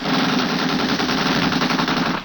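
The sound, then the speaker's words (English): Machine-gun fire from a launch opening fire on a yacht at sea, a loud, dense and unbroken rattle of rapid shots. “Fire!”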